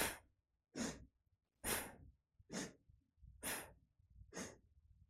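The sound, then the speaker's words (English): Slow-motion Bhastrika breathing: three cycles of strong exhale and inhale form six forceful breaths, each a breathy rush separated by short quiet gaps. “it's a strong exhale and a strong inhale. So try that. Just, it's like a Bhastrika breath, but do it in slow motion, just 3 times.”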